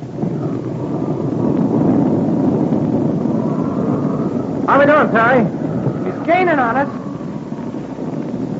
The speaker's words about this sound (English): If this motor would clear up, I could have fun, but not this way.